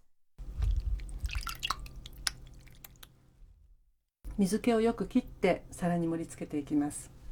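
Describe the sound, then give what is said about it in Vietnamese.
Water drips from soft tofu held in the hand as a run of small, irregular drips and squishy trickles, followed by a person talking. “Trước khi đặt vào đĩa thì bạn hãy đặt đậu phụ lên tay để nước chảy bớt ra.”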